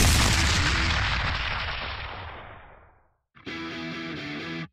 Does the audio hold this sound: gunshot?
yes

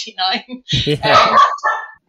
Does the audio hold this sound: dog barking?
yes

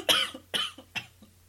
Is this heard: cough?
yes

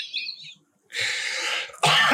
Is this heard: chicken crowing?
no

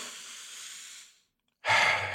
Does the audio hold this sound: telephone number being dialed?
no

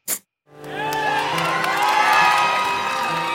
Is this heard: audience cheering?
yes

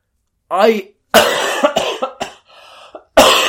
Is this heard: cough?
yes

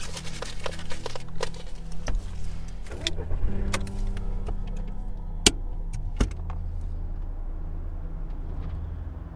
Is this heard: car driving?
yes

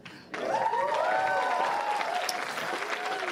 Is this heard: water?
no

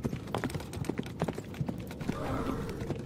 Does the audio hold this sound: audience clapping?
no

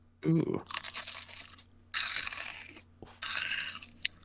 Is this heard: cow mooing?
no

